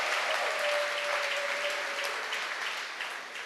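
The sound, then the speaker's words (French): An audience claps for the Lord at a church gathering, a dense, steady wash of many hands that stays full throughout and eases off slightly toward the end. “4 hectares of land, clap for the Lord. Bâtiments, 20 acclamons buildings, le Seigneur. Let's clap for the Lord.”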